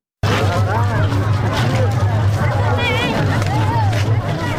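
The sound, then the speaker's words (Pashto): Dense crowd hubbub of Eid festival-goers in the city of Tarin Kot, Uruzgan: many voices merge into a loud, continuous babble with a steady low rumble beneath. “دا شور او زوږ په ترین کوټ شار کې د میلیانو دی نه د موټرو.”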